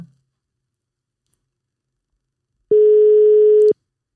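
A single telephone ringing tone on the line as a friend is phoned during a quiz-game lifeline call. After near silence, one steady, even-pitched tone sounds for about a second and then stops.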